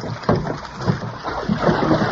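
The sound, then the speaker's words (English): Water splashing and sloshing as a boat is pushed with a pole through swamp water, a few soft splashes over a low, steady wash. “He's going to push the boat with a pole, just like a gondolier in Venice.”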